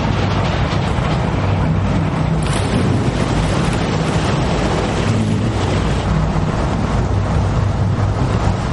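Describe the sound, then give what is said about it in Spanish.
Ship propellers start up as a warship slowly backs away from a mine, giving a loud, steady churning roar with a constant low rumble that carries evenly throughout. “Las hélices del buque se ponen en marcha. El barco retrocede lentamente y se aleja de la mina.”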